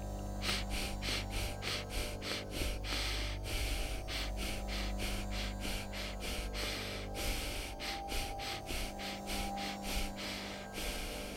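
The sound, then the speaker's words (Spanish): Rhythmic breathing in a cycle of four short breaths and a longer fifth breath, heard as many quick, airy pulses over a steady background hum. “es una respiración que consta de cuatro inhalaciones y exhalaciones cortas y una quinta inhalación y exhalación más larga, generando un ciclo que puede realizarse así.”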